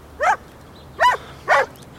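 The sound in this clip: A dog barks three times in short, sharp bursts, with a longer gap after the first bark and a quicker pair after it, over faint steady background noise.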